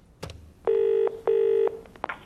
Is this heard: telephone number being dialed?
yes